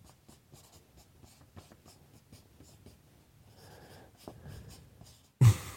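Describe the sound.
Pen or pencil scratches on paper as someone writes by hand during a game, in faint, quick, irregular strokes, ending with one loud thump.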